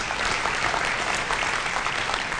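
A church audience gives a clap offering, a dense, even round of applause that holds steady for just over two seconds with no gaps.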